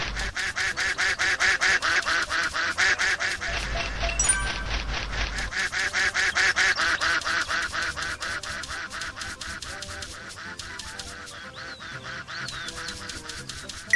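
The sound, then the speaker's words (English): A duck quacks and honks in a rapid, steady stream of loud, harsh calls that runs almost without a break for the whole stretch, strongest at the start and easing slightly toward the end. “All right, come on, duck. You stupid duck.”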